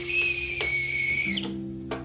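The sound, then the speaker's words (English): A small whistling teapot gives a steady, high whistle that holds and then shifts and fades partway through, over a low, constant hum. “As the little whistle blows on my little teapot”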